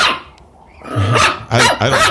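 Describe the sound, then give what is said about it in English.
An upset dog left alone in a studio barks a few times, loud, gruff and rough-edged, with short pauses between the outbursts and a quieter stretch before the first bark. “She left her dog in here with me. He seems to be rather upset.”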